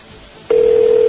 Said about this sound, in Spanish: Le están llamando. Venga, coja, hombre.